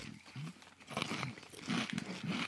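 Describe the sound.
Faint crunching as someone bites into a stack of four chips: a few brittle, crackly bursts separated by brief pauses, with no talk over them.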